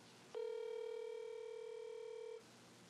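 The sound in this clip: A telephone ringback tone on an outgoing call to a governor's press contact that goes unanswered and rolls to voicemail: one steady electronic tone lasting about two seconds, preceded and followed by quiet.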